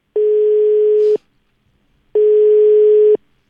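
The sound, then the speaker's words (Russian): A telephone line tone sounds while a call is being placed: two steady, mid-pitched beeps about a second long each, separated by a second of silence. “Звоню одной из многочисленных хозяек дачи в Мелуже.”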